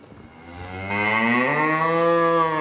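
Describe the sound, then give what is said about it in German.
A dairy cow lows in a stable on a farm in Thurgau, Switzerland, where 23 milk cows are kept: one loud, drawn-out moo of about two seconds, its tone lifting slightly early on before holding steady. “Im Stall von Rudi Schneider im thurgauischen Elighausen stehen 23 Milchkühe.”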